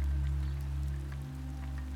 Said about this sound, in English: A delicate rain pattering on the glass gently eases Lily into wakefulness.